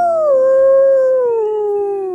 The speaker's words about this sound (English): Howls coyote miles from the house.